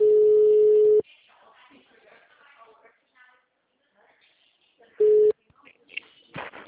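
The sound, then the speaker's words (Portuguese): Telephone tones sound while a bank call is being transferred: a loud steady tone for about a second, then faint voices, then a second short tone followed by more talk. “Aguarde só mais um instante que estamos transferindo a sua ligação.”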